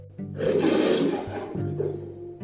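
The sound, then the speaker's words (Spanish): An angry lion roars: one loud, rough roar that swells and holds, then a weaker rumbling tail. “Se escuchó un rugido iracundo. El león, muy malhumorado por ver su siesta interrumpida, atrapó al ratón entre sus garras y le dijo dando otro rugido:”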